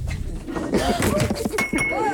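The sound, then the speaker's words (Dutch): A glass tips over with a brief clink and a light ring, nearly buried under several people chatting. “Ja, er valt een glas om. Maar gelukkig niet op de telefoon.”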